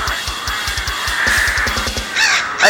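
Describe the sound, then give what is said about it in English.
Crows cawing in a garden, a few harsh, rasping caws over a steady, low, thumping pulse that keeps a regular rhythm throughout. “Crows in my garden, they're really a pest. The county says I can't move them, 'cause they're watching a nest.”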